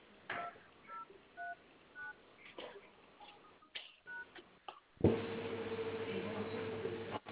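Telephone keypad tones play as an operator transfers a caller to a cafe administrator, with several short beeps in a row. After a pause, a sustained, buzzy line sound follows.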